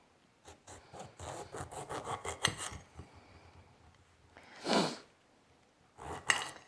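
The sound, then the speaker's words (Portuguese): A knife cuts a lime, giving a quick run of soft rasping strokes, then two separate longer scrapes after a pause, all faint. “Vamos começar cortando o nosso limãozinho. Eu não sou muito boa nisso, mas tudo bem.”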